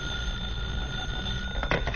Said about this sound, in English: will you answer the phone, please?